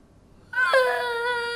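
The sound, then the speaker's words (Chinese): A young child bursts into crying after a moment of near quiet, a high, wavering wail that catches briefly and then holds steady and fairly loud to the end. “别哭，别哭，当当，来来来，别哭，别哭啊！”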